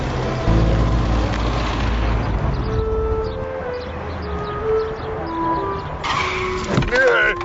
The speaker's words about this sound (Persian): این چه طرز رانندگی و ترمز کردنه؟